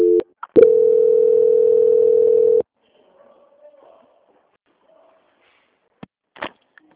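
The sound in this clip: A steady telephone tone plays while a call is transferred, holding for about two seconds after a brief blip, then cutting off to near silence with a few faint clicks.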